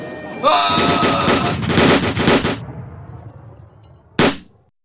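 Machine-gun fire in an audio-drama raid: a dense, loud rattle of rapid shots lasting about two seconds, then a pause and one sharp single shot before fading out.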